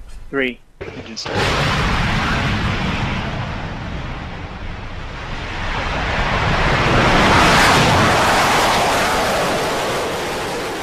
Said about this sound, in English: That's what it sounds like when a rocket launches from the Mahia Peninsula in the Wairoa district of Hawke's Bay.